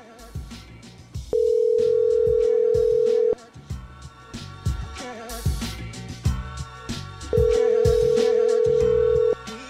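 Ringback tone of a call placed to a businessman's cell phone: two long, steady electronic tones, each about two seconds, separated by a long gap and sounding over a busy, constantly shifting background.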